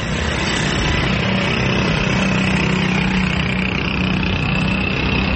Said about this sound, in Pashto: د موټر سایکلو د سوري کړل شوي سایلنسرو غړمبار